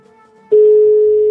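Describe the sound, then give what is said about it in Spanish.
A steady telephone dial tone heard while placing a call to Realejo switches on abruptly after half a second and holds at one even mid pitch to the end, loud and continuous, over a faint low hum. “vamos a intentar llamar al Realejo otra vez, a ver si esta vez se comunican con nosotros. Bueno, ahora da tono.”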